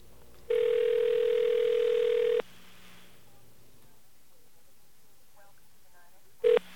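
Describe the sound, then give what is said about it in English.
Telephone dial tone on a line used to call the 9X voicemail number for the 989 exchange: a steady tone holds for about two seconds and cuts off, and after a quiet stretch one short dialing beep sounds. “And we're going to call the 9X voicemail number for the 989 exchange. And we're doing this live on the radio. Listen carefully.”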